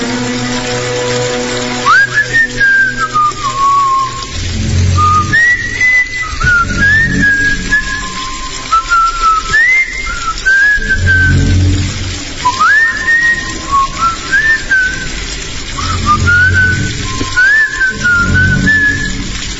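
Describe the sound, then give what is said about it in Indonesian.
A person whistles a tune idly while waiting for a bucket to fill with water. The lively, high melody of short rising and gliding notes plays over continuous low background noise. “Sambil menunggu air di ember penuh, iseng karena bosan, spontan aku bersenandung sambil bersiul.”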